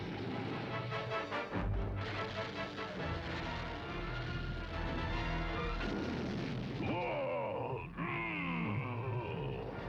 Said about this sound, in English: Oh, pretty blast.